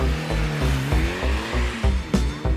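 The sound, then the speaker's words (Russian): A car's engine roars as it speeds off after a sharp U-turn toward a motorway. A pitched engine drone runs over repeated throbbing pulses and stays loud throughout. “Машина едва не сбила своего хозяина, совершив немыслимый разворот, и умчалась в сторону автострады.”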